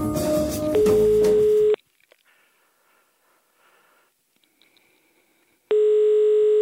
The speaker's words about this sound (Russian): а пока мы звоним ему в Санкт-Петербург